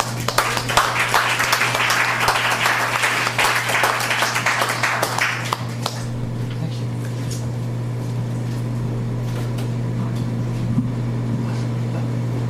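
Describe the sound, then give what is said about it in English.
Audience applause for a performer at a live show: dense crackling clapping for about six seconds, then it stops and a steady low hum remains. “That's Octavie Jordy at Hague. Let's give her another hand.”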